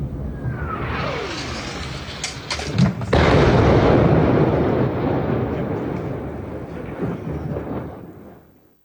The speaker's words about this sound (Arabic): تظهر هذه الصور قصفا مدفعيا للاحتلال الإسرائيلي صادف محيط كفر جوز شمال مدينة النبطية.